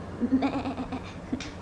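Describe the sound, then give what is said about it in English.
A goat bleats in a short, wavering, nasal call, fairly faint, followed by a quieter second bleat near the end. “That is the goat, not the horse.”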